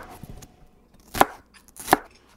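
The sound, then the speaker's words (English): A knife slicing lemongrass on a cutting board, cut into small pieces from the tip: two sharp, distinct chops stand out, preceded by a few softer taps against the board. “how do we cut the lemongrass? Roughly smaller slices, just starting from the tip right here.”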